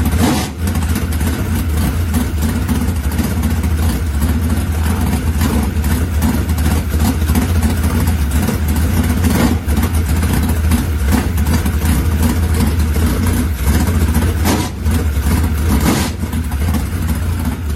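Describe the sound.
Car engine with a big four-barrel carburetor, rated at 726 horsepower, idling and revving in a sustained loud, low rumble with brief dips, no talking.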